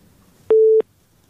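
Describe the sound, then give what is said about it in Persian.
Telephone busy tone after a call-in phone line disconnects: one short, steady, loud beep at a low-mid pitch, starting and stopping abruptly over faint background hiss. “صدا شما رو داریم، قطع شد صداشان، تماس دیگه میگیریم”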